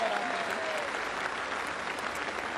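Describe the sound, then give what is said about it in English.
Applause at a football parade presentation: dense, steady clapping keeps an even level for the whole moment. “Please, a round of applause for our Premiership Cup ambassador.”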